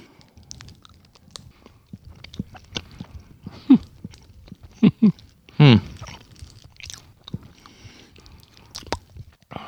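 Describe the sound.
Biting and chewing an Ülker Peki caramel snack cake: soft, moist chewing with a few louder, squishy bites standing out, fairly faint overall.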